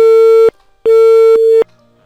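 Telephone busy tone after a caller's line is cut: loud, steady mid-pitched beeps in an on-off pattern, one tone ending, a short gap, then a longer tone before the line falls quiet.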